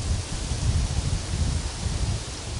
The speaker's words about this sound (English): Do you hear the wind, which is now even slightly changing direction? Now it's coming from behind your back, in a way.